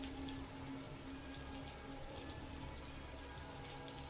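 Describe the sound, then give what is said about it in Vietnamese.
A passing rain shower gives a steady, even hiss of falling rain that holds at the same level throughout, with no voices. “Cơn mưa rào đến nhanh rồi cũng tạnh nhanh.”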